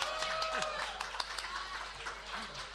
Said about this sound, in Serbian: Aplauz za Bajića što je došao i stao ovde ispred.